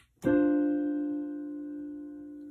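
A piano plays the ii chord of C major with only the root, third and seventh, struck once and left to ring as a clear sustained chord that slowly fades.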